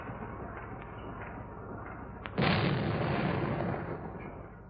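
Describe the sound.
Torpedoes fire from a warship's tubes. A sudden loud burst of rushing, hissing noise cuts in partway through, holds for over a second, then slowly fades back into the steady low rumble underneath.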